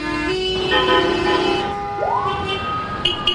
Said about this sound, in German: Ohrenbetäubendes Chaos. Abgaswolken, die bleiern über dem Nil hängen. Willkommen in Kairo.